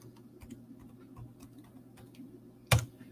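Typing on a computer keyboard: faint, scattered keystrokes tap irregularly over a low steady hum, then one sharp, louder clack lands near the end.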